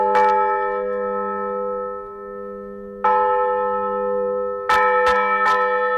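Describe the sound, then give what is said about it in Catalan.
A church bell rings in a small village of 150 inhabitants in the Segarra. It gives five resonant strikes that each hum on as they fade: two widely spaced, then three in quicker succession. “Feia 80 anys que aquesta campana va sonar per última vegada en aquest poblet de 150 habitants de la Segarra”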